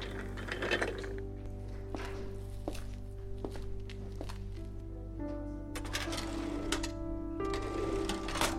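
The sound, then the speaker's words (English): A microfilm reader machine running, with mechanical whirring and ratcheting clicks over a steady low hum. The clicks and thunks grow busier toward the end. “I then went to the microfilm machine.”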